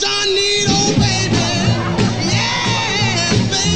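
Energetic early rock and roll music plays loud and continuously, with shouted vocals and an excited crowd whooping and cheering throughout.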